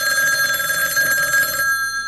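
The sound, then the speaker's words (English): A telephone bell ringing in a dining room after dinner: a loud, continuous metallic trill with bright steady tones that stops shortly before the end, with no voices. “Dinner and dessert had long since been finished, and we were all laughing and telling stories when the phone rang.”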